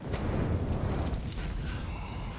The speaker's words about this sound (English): He uses Yellow as a blowtorch.